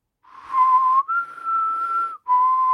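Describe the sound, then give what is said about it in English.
A person whistles to imitate a high-pitched three-part call: a steady low tone, a slightly higher held tone, then a return to the low tone, with short breaks between the parts. “It has a high-pitched three-part whistle that goes low, high, low.”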